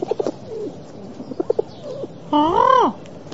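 A pigeon gives one loud, drawn-out coo that rises slightly and then falls, preceded by a few soft, short chirps and clicks.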